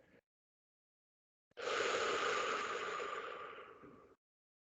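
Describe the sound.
One long, deep breath is drawn during a guided practice of bodily tranquility. It is a soft, steady rush of air that slowly fades after a very brief earlier breath.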